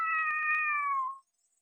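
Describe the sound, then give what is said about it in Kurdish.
A cartoon cat gives a single clear, drawn-out meow whose pitch sinks toward the end, followed by silence. “سەیری ئەوێ بکە باوکە، بەڕاستی پشیلەیەکی زۆر زیرەکە.”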